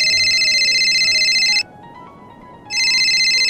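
A phone ringtone plays a steady, bright electronic ring, stops for about a second, then starts again, loud and alone with no voices.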